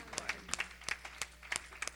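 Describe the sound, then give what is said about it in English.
Hand clapping from an audience at a church worship service: many quick, sharp claps in an uneven, scattered rhythm, faint overall and with no talking over them. “Come on, give him another hand clap. Come on, just keep clapping to him just for a moment.”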